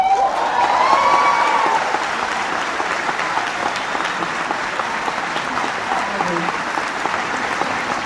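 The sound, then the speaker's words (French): An audience applauding Roman Polanski at Deauville with sustained, dense clapping that carries evenly for about eight seconds, with scattered cheers mixed in. “Roman Polanski, acclamé par le public d'Auville, garde le triomphe modeste.”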